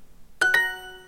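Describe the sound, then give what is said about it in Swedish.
The Duolingo app chime for a correct answer: two quick, bright bell-like notes in close succession, the second a touch higher, ringing out briefly over near silence. “Och det här positiva plinget, när man får rätt”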